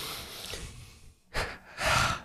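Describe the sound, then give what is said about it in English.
A deep breath drawn audibly: a short, sharp breath sound followed by a longer, louder one, heard alone after a quiet stretch with no talk. “let me take a breath”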